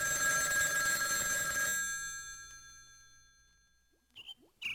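A telephone bell rings with a bright, metallic tone, then rings out and fades into near silence, followed by a couple of short, higher-pitched chirps at the very end.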